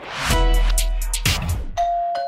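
A doorbell sounds a loud ding-dong chime, with notes ringing out and decaying alone, followed by a brief higher tone near the end.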